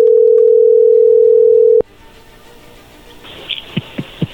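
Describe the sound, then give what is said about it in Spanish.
A steady telephone dial tone holds loud and even for nearly two seconds as a call is placed, then cuts off abruptly, leaving faint line noise and a few short soft sounds. “ahí se está marcando.”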